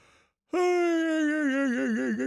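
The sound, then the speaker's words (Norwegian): One voiced yawn bursts in after a brief quiet moment and holds as a long, tonal exhale. The pitch sags gently and wavers toward the end. “En liten gjesp der.”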